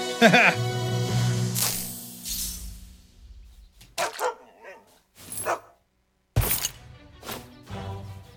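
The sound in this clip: Dogs bark in a video game, with several sharp barks and yips scattered between bursts of game sound and a voice talking over them.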